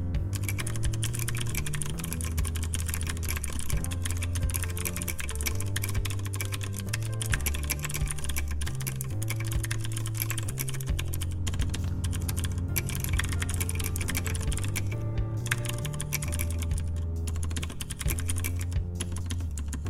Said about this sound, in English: That's me backspacing, which I do a lot. I tend to be a quick typer and backspacer